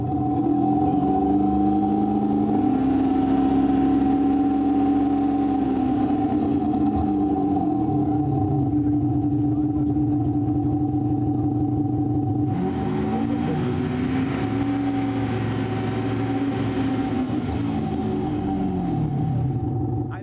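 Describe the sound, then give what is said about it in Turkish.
A car engine idles with its noise unsuppressed during a decibel measurement: a loud, continuous low rumble with a steady hum, then revving rises partway through and the roar grows brighter and stays loud to the end. “Motor gürültüsü engellenmiyor. Hızlanmadan 86'ya ulaştık bile. Boşta çalışan motor gürültüsü.”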